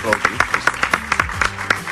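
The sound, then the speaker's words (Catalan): Audience applause, steady rhythmic clapping in evenly spaced beats, heard under a speaking voice throughout. “Hi havia aplaudiments, no? Podeu aplaudir. Sí, sí. Podeu aplaudir. No us talleu.”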